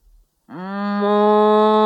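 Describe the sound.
A human voice imitates a cow mooing: a single long, low, sustained moo that swells slightly and holds steady to the end, after a brief faint sound and a short silence.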